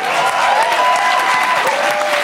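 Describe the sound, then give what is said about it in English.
Steady applause from an audience for a performer, a dense, loud wash of clapping that holds evenly throughout with faint crowd murmur underneath. “Can we first get a round of applause for Camille Luchamp, please?”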